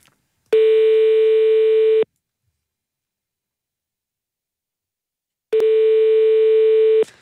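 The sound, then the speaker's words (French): Ringback tone of a telephone call to a mobile number: two long, steady buzzing tone bursts, each about a second and a half, separated by a long silence. “C'est le numéro de GSM. On rappelle tout de suite.”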